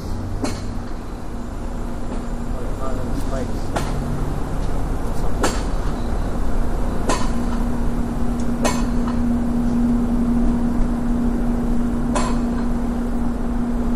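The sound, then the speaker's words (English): A train crosses a railroad bridge with a steady, dense rumble and a sustained low hum. Sharp metallic clacks recur every second or two throughout. “Oh, there's a train right there, a railroad bridge.”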